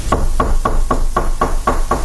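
Knocking on a door: eight evenly spaced, loud, sharp raps in a steady rhythm, with no voices.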